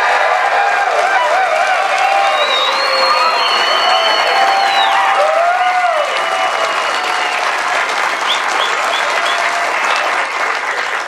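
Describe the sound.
A studio audience on the BYU campus in Provo, Utah, claps and cheers loudly for a college football show, sustaining dense applause throughout with scattered whoops and shouts rising above it.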